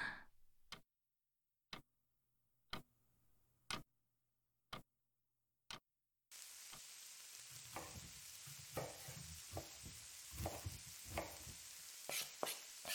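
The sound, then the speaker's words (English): Chopped food cooking in a frying pan: a series of evenly spaced sharp ticks, then a steady sizzle with stirring scrapes and crackles. “Okay, these are chopped. That's cooking in the pan.”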